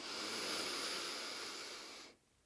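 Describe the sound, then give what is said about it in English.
A long, audible inhale during a guided relaxation breathing exercise, a steady breathy rush lasting about two seconds that then cuts off to near silence. “let's take a fresh inhale and an audible exhale. Inhale.”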